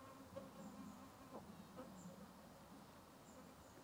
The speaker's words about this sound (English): Can you hear those insects? It's very... Because it's so quiet, you can hear them.